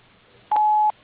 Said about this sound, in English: At the tone, please record your message. When you have finished recording, you may hang up or press 1 for more options.